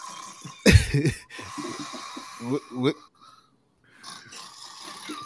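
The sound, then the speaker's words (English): A cartoonish snoring sound effect fired from a soundboard button: a loud, rasping snort-snore burst near the start, followed by people talking. “what is that? It's like the fucking Three Stooges snoring, yo. Yeah. It's the wrap it up button”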